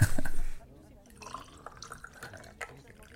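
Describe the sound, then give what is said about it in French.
Water pours into a glass of anise pastis in a brief, loud gush lasting about half a second, followed by quieter speech. “On le regarde, on écoute l'eau qui coule, on commence à sentir, à humer tous ces parfums.”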